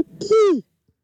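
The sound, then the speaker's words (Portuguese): A person's voice imitates an owl hoot for a mascot. A single short voiced call slides smoothly downward in pitch and then falls to silence. “Faz você a coruja da mascote, então vai, faz você.”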